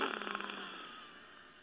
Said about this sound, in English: So I am going to close off the right nostril with my ring finger, and then breathe in through the left nostril. You might have one that's a little more closed. It might be a noisy experience.